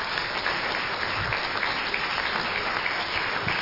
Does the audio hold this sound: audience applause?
yes